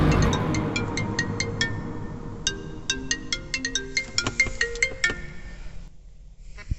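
A phone ringing with an incoming call, its ringtone a repeating pattern of bright electronic notes that runs for several seconds and then cuts off.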